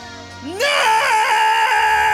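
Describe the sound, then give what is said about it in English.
A man screaming loudly: a sudden rising yell that breaks into a sustained, strained, wavering scream held at full volume to the end. “Turn up your speakers, because I'm about to scream about this week's”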